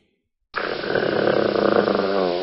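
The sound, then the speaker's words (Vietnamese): A crazed dog growls low and rumbling: after half a second of silence a deep, rough, throbbing snarl starts abruptly and holds steady for about two seconds, growing slightly louder, like a big motorbike engine revving. “Tiếng gừ rất rõ ràng, giống như tiếng động cơ phân khối lớn nẹt bô.”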